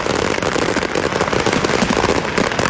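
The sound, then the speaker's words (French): Fireworks explode in a dense, continuous barrage of overlapping bangs and crackles. The sound is loud and steady throughout, with no pause between bursts. “Moi, tu vois, ça me dérangerait pas d'avoir juste une minute de feu d'artifice. C'était aussi intense, tu sais.”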